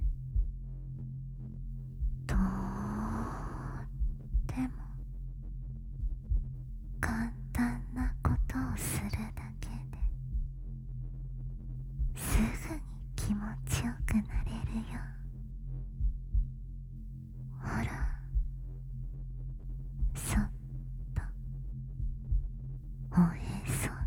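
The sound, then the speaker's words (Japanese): A human heartbeat throbs in low, muffled pulses throughout, with soft whispering and faint rustles over it. “私の心臓の鼓動の音、これに合わせて”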